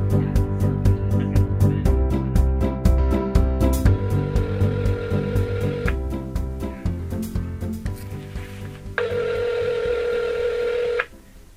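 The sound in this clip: A cell phone dials on speakerphone. A quick run of keypad beeps is followed by two longer steady tones, each lasting about two seconds, and the last tone cuts off abruptly at the end.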